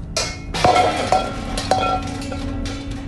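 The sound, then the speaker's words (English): A metal wok drops with a loud clang and a ringing metallic tone, followed by a few smaller knocks and rattles as it settles. “He drops the wok.”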